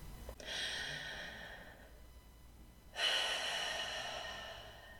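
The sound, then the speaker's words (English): A deep breath taken in a singing posture during a vocal breathing exercise: two long, airy rushes of breath, each sustained for over a second, the second starting more abruptly and louder. “So here we go. We're going to take a deep breath in this posture.”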